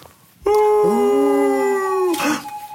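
An animal howl: a sustained, harmonically rich cry that starts abruptly and holds a steady pitch for about a second and a half. A second, lower tone joins shortly after, and the cry ends in a brief noisy burst.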